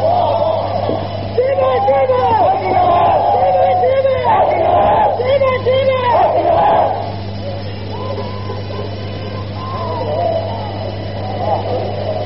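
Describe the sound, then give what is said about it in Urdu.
Crowd chanting slogans at a gathering, many voices shouting together in loud swelling waves that ease off after the midpoint, over a constant low hum. “آپ نعرے کم کریں تاکہ میں سفر کر سکوں”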